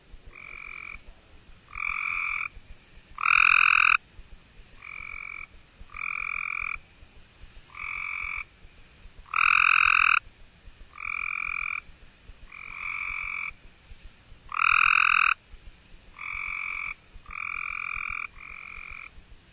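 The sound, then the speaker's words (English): Cope's gray tree frog calling: a regular series of short, buzzy trilled calls with brief gaps between them. Some calls are louder than others, and no voices are heard. “Cope's Gray Tree Frog.”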